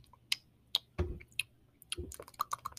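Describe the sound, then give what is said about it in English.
Game controller button clicks: a quiet, irregular series of sharp taps and clatters, many in quick succession, with no voices. “sorry about the controller noises again”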